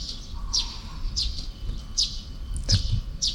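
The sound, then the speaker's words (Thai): Birds chirp around a place they have recently begun to settle, giving a series of short, high chirps spaced at fairly regular intervals over a low, steady background rumble. “นกก็เริ่มมาเยอะนะอีกสักหลายปีสี่ห้าปีก็คงจะนกมากกว่านี้”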